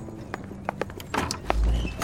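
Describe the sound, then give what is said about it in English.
Horses pulling a carriage come to a stop, their hooves clip-clopping in many irregular clacks, with a low rumble swelling near the end. “As the carriage and the horses came to a stop, the soldiers dismounted and approached the door.”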